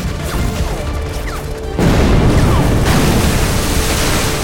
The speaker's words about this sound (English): The warhead impacted in a thicket, the brush vanishing in a roiling ball of billowing orange-yellow flame.